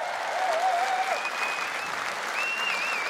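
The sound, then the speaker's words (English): Applause from an audience of about 1,000 people at a charity evening for a foundation: dense, continuous clapping that stays loud and even throughout, with no clear voices over it. “Matt Hampson, everybody. Put your hands together.”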